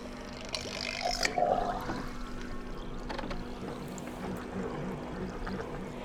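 Steady mechanical whirring and faint water noise from a rotating water tank experiment starting to spin in an applied mathematics lab, with a constant low hum and a few brief clicks near the start, no voices.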